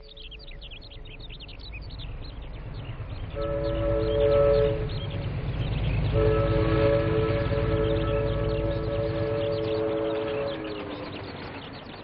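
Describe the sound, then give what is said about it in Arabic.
A train passes with a steady rumbling of wheels throughout. Two long, tonal horn blasts sound over it, the second lasting longer, and the noise swells in the middle before easing off. “وادي قطر كمان فات، فات لغاية دلوقتي تلات قطرات”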